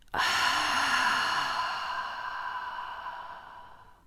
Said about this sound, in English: Breathe in and exhale out.